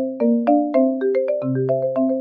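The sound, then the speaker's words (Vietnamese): A telephone ringtone plays a melodic electronic tune of short, stepped notes, about a dozen over two seconds, loud and clear with no voices. “Chuông đổ thật lâu mới có người bắt máy.”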